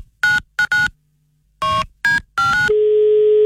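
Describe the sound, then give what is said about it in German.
Touch-tone dialing for a surprise phone call: a series of short electronic beeps in irregular groups, then a steady tone that holds to the end. No voices. “Jetzt ein Überraschungsanruf von uns bei einem Bräutigam. Mhm. Und das machen wir jetzt”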